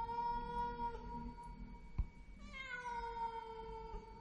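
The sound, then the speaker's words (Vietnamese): A cat yowls mournfully in a courtyard, a long drawn-out wavering cry with rising and falling pitch, interrupted by a brief thump midway and then resuming in a second falling wail, alone without any talk. “con mèo lúc nãy tưởng đã đi, thế nào mà giờ nó lại quay lại, kêu lên mấy tiếng thê thiết.”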